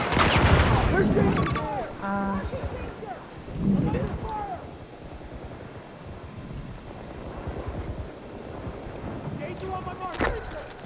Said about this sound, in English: We have secured the sector. I'm taking fire!